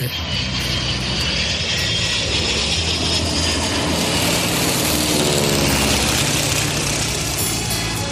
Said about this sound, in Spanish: yo cojo ahora mismo el avión y me presento en el estudio.